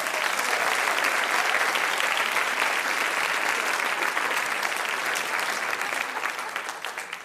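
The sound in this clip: Audience applause greeting a speaker who has just been introduced: a dense, steady patter of many hands clapping together, holding loud and even for several seconds before thinning and tapering off near the end.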